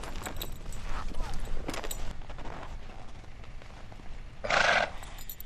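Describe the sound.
Horse at a race venue, being saddled, gives a single short, bright whinny near the end, after a stretch of clattering noise and muffled talk.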